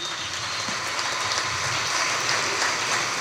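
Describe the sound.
An audience applauds at a comedy roast with a steady, even wash of many hands clapping that holds its level throughout, without voices.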